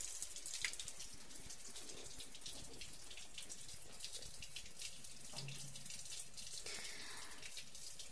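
Shower water running in a steady, even rush of spray and splashing that continues without a break, with no voices.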